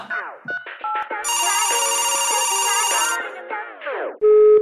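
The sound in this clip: A telephone ringtone plays as a bright electronic warble lasting about two seconds, framed by short melodic chirps and tones before it and a steady beep at the end.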